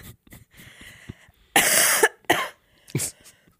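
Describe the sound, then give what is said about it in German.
A few harsh, raspy coughs from a person showing how they cough. One long loud burst comes first, then two shorter ones, after a run of faint small sounds. “Nein, ich huste so. Wie kann man denn anders husten?”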